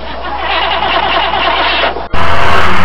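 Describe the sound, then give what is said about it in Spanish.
A car engine roars loudly and steadily, dips sharply for a moment, then surges back louder and harsher. “Y bueno, la saga en sus coches toman la carretera que va al retorno, que los llevará de nuevo a la Baticueva”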